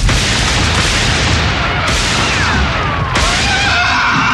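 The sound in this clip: Gunfire, two heavy booming shots that burst through a loud, dense roar of noise, each followed by a ringing tail.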